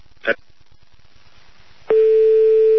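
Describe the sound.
A telephone line tone on a studio switchboard line, where a double call has come through, sounds alone: a brief faint blip, then a steady, unbroken tone at one pitch that starts abruptly and holds to the end.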